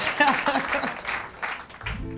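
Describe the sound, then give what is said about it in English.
An audience claps at a live talk, with voices calling out over the clapping in the first half. A low, sustained hum comes in near the end. “Y'all can clap, because that's some real work.”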